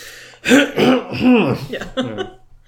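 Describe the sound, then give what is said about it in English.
A man clears his throat in a few voiced, gravelly bursts that trail off into softer rasps, with no words spoken. “Clears his throat and points to himself.”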